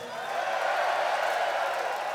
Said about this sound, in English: You've been an excellent fucking audience tonight. Again. Give yourselves a fucking cheer.